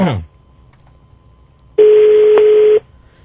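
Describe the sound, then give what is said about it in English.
Ringback tone of an outgoing phone call to a hotel in Kampala: a brief falling tone at the start, near-silence, then one steady mid-pitched ring burst lasting about a second. “Is it ringing? There it is.”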